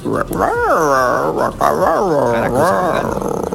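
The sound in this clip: A dog vocalizes in drawn-out, talk-like howls and whines, its pitch swooping up and down in several loud glides over a few seconds.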